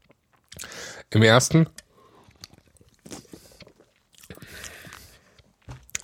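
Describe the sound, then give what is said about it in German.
A loud slurp of mate tea sucked through the mouth together with air, one short wet burst lasting about half a second, followed by a few faint mouth and handling sounds. “Ich trinke nochmal einen Schluck Mate.”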